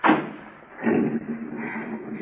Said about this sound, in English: Pauline, open the back door.